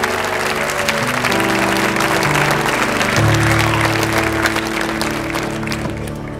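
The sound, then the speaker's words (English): Standing audience applause welcoming a speaker to kick off a morning session: loud, sustained clapping from a large crowd, steady and thick throughout, easing slightly at the very end. “would you stand with me to your feet, put your hands together, and welcome the one, the only, Ryan Brodien, as he kicks off this morning's speaking.”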